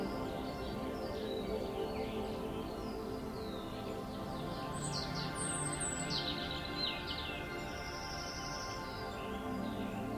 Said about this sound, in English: The only sounds you can hear are those of the bees and the birds that flit about you in the meadow.